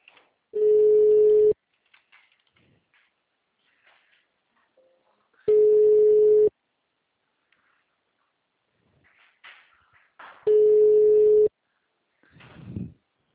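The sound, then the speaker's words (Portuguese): Telephone busy signal: three steady mid-pitched beeps, each about a second long, separated by several seconds of near silence with faint small noises, and a short rustle at the very end. “Vamos ver se deu certo. O número está ocupado.”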